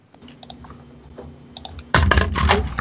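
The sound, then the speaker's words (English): Typing on a computer keyboard during a tabletop role-playing game session: scattered light key clicks at first, then a denser, louder clatter of keystrokes in the final second. “I'm typing things out”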